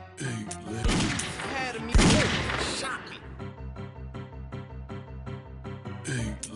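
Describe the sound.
Gunfire in a video game ambush: a loud cluster of crashing shots and impacts bursts out for a couple of seconds, then the noise drops away.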